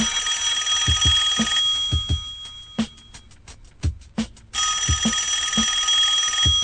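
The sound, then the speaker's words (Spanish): A telephone rings in an office, sounding as bright, rapid bell-like trills that repeat in several bursts over a steady background hum. “En la oficina suena el teléfono.”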